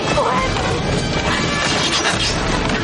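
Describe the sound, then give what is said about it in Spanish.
An axe smashes through a wooden carriage roof and the wooden boards shatter. The loud, dense crashing and splintering noise runs without a break for about three seconds. “el soldado rompe el techo con un hacha. Las tablas de madera se hacen añicos”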